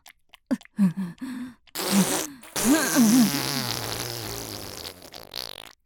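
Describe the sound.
Farts sound in quick succession: a few short, squeaky, buzzing bursts with brief gaps between them, then a longer, rough, sputtering stretch that slowly fades.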